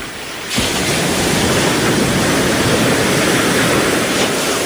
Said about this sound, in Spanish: Y seguimos aquí en la playa, en Mar del Plata.